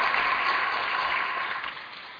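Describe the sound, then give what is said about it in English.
Audience applause at a public gathering honoring a politician: a dense, steady wash of clapping that holds an even level and tapers slightly toward the end. “So another round of applause.”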